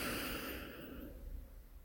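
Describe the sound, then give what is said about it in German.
A deep inhalation during a guided breathing exercise. One long, soft, airy breath carries a broad hiss that is strongest at the start and gradually thins and fades over about two seconds. “Und nochmal einatmen.”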